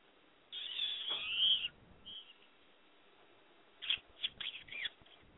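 A bird calls in faint, strained, high-pitched screeches: one long rasping burst, then after a pause a cluster of short, broken squawks.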